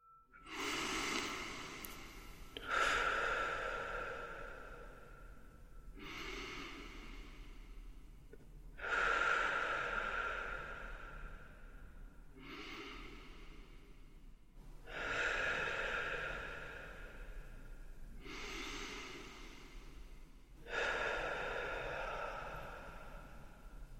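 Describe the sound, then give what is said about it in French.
Slow, deep belly breaths, a series of long, airy inhales and exhales alternating at an unhurried, even pace, soft and alone with no talk. “prenons le temps de quelques respirations amples avec le ventre”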